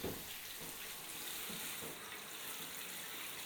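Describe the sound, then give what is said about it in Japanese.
Warm water running to rinse a person, a soft, even hiss that continues steadily throughout, faint and with no talk. “軽くお湯で流します。これぐらいで熱くないかな。流しますね。”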